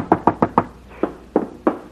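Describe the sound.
Knocking on a door: a quick run of four sharp raps, then a few slower, evenly spaced knocks, each crisp and fairly loud.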